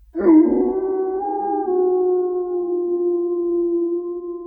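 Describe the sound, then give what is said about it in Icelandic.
A wolf howls in a dark forest: one long, sustained howl that starts abruptly, dips slightly at the outset, then holds a steady, mournful pitch, loud and alone. “Dimmi skógurinn blasir við honum og enn og ný heyrir hann ylfur berast”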